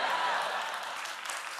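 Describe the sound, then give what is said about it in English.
Audience applause at a comedy show forms a continuous wash of clapping. It is fullest at the start and eases slightly as it goes on. “Really? Applause.”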